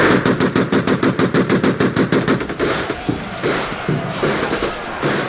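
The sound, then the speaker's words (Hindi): Soldiers fire automatic guns in rapid, evenly spaced bursts of many loud, sharp rounds. The steady rhythm then breaks into heavier, irregular thuds and blasts. “Soldiers आगे बढ़िए, fire!”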